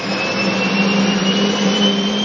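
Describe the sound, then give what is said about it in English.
Engines of a giant Hercules C-130 transport plane used for dropping flame retardant on wildfires roar in a loud, constant drone with a steady high whine running through it, without voices. “A lot of fire suppression activity is done by flame retardants using aircraft like this one, a giant Hercules C-130 transport plane.”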